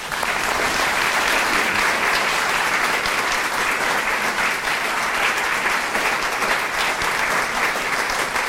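A crowd at a civic welcome for an honored guest applauds without pause, a loud, dense and even roar of many clapping hands.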